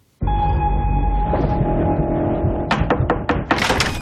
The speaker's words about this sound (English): Well, here is the trailer for The Predator.